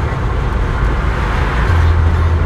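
The steady, low rumble of a car driving along the road on the way home, a continuous road and engine drone with no distinct events. A deeper hum enters near the end.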